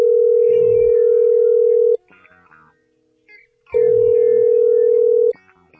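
Telephone line tone as a call is placed: two long, loud, steady buzzing tones, each about two seconds, separated by a quiet gap.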